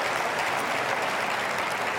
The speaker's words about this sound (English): Yeah, you can clap for that. Go ahead.